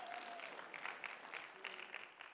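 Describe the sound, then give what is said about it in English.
A church audience claps during a sermon, a faint but steady spatter of many hands applauding at an even pace, heard alone without talk. “if we're going to clap, then everybody should clap”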